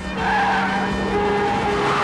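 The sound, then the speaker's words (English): A speeding car screeches as metal scrapes against concrete pavement, a continuous loud squealing grind with a low rumbling undertone that lasts the whole clip. “speeds along the road, the wheels bumping up onto the pavement, metal screeching against concrete in a shower of sparks.”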